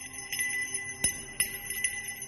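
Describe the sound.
A hand bell is shaken during a prayer ritual, giving faint metallic ringing. A few sharp strikes sound, with sustained tones lingering between them.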